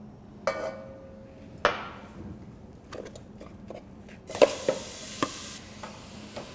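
Onion and leek cook down in olive oil in a soup pot, a soft, steady sizzle broken by a few sharp clinks and scrapes of stirring, with two louder knocks near the start and a cluster later on.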